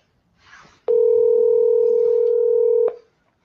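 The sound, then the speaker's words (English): A telephone sounds as a call is placed to a listener with a question: one steady electronic tone holds for about two seconds, preceded by a faint soft rustle. “Let's give him a ring here and see what his question is.”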